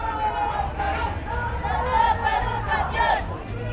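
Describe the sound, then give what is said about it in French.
A crowd of health workers demonstrating in La Paz, with many voices shouting and chanting together in a loud, continuous mass that swells and rises in bursts. “Alors aujourd'hui et depuis plusieurs semaines, les professionnels de santé manifestent.”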